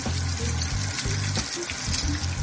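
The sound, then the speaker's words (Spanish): Bacon sizzles in a frying pan with a dense, steady crackle and hiss over a low rumbling undertone, continuous and unbroken throughout. “pero ustedes le agregan, porque te van a dorar ahí el tocino, que se vaya dorando, y ahorita les digo cómo le seguimos.”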